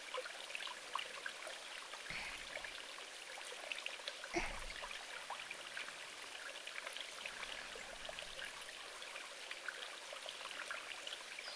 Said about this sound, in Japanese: 大きな川というよりは、山や森の中にあるように、流れもゆったりとしたものになります。